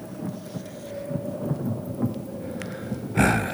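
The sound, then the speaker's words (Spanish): Thunder rumbles through a storm with steady rain, a low continuous roll that swells and fades, then ends in a sudden loud, bright crack. “Mirad, nubes grisáceas, moteadas de negro, serpentean sobre nuestras cabezas y los truenos...”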